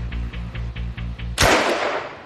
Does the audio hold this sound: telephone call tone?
no